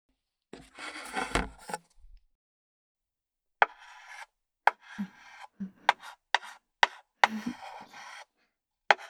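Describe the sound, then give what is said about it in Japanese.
Chalk scratching across a board as a chalk artist draws straight lines: one long gritty stroke, a pause, then many short, sharp scraping strokes, heard alone. “答えはね、チョークアートだよ。”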